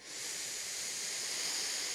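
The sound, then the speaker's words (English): A full, steady breath drawn in through the nose, a soft airy hiss that holds evenly for about two seconds with nothing else heard. “Let's take a really full breath in through the nose,”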